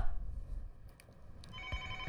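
Faint telephone ringing signals an incoming caller on a radio call-in show, a soft, steady electronic tone sitting under low background noise.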